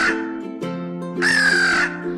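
A crow caws a few times in close succession, harsh buzzy calls with a longer, more strained cry in the middle, loud and alone without talk.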